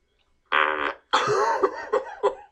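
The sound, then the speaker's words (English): Flatulence from someone eating fast-food quarter-pounder burgers at every meal: a short, loud burst, then a brief gap and a longer sputtering release punctuated by a few sharper pops. No voices are heard. “if you eat McDanks for like every meal, you're definitely gonna have start having some gas problems. Some quarter pounders coming out of you. All right, we're gonna give the quarter pounder a listen.”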